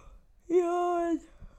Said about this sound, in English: yawn.